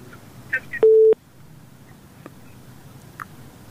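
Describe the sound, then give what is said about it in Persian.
A telephone tone after a dropped call: one short, steady, mid-pitched beep over faint background noise, with a few small clicks around it. “تماس شنوندیم و قطع شد”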